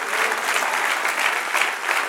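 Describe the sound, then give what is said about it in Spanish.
An audience applauds during a Spanish-language church service, a full, steady roar of many hands clapping that swells slightly in places but stays continuous from start to finish. “Dale un aplauso, Señor. ¡Aleluya!”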